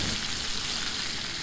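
Meat searing in a pan gives a steady, dense sizzling hiss that holds at an even level throughout, with no voices.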